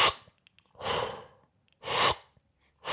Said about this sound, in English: That's my best impersonation of like a regulator. So you're breathing in and breathing out.